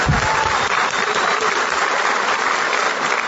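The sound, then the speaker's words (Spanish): Audience applause, a dense, steady wash of many hands clapping that holds at an even loudness throughout, with no voices standing out. “para quien quiera un aplauso, mi querido amigo diamante, Alfredo Flores”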